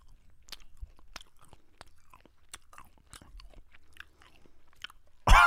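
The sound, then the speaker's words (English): Someone chews a small piece of food, producing many soft, irregular crunchy clicks in a quiet stretch, ending with a sudden loud burst of noise. “He ate a little piece.”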